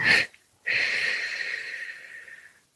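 Breathing exercise with one short, sharp inhale, a brief pause, then a long, steady, airy exhale that slowly fades out.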